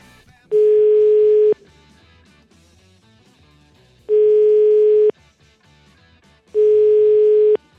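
Telephone tone while placing a call: three steady, mid-pitched beeps, each about one second long, separated by long silent gaps, with no talk.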